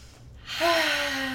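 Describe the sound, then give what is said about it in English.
A deep breath: a loud, breathy rush of air that swells after a quiet start and carries a faint voiced tone through it, like a sigh, held until the end. “Take a deep breath and step away.”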